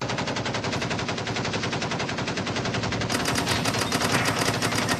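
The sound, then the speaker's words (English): Sustained machine gun fire: a dense, rapid stream of loud shots running without a break, turning brighter and slightly louder about midway through. “So there's some extra machine gun action this week.”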